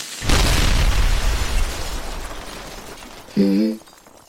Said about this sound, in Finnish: Saatiin räjäytystyöt oikein kunnolla taas vauhtiin täällä työmaalla.